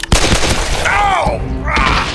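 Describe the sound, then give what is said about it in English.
Two sharp pistol gunshots fired in quick succession during a close-range gunfight, the first cracking out almost at once and the second following shortly after, both loud, abrupt bursts. “shot him twice, just as he was clearing leather. He placed his shots fast but carefully, knocking both legs out from under the man.”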